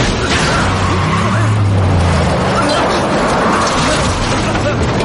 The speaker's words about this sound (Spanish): Algo ha golpeado el coche haciéndoles descarrilar.